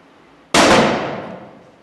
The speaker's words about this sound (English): Now flip off the safety and you're ready to shoot.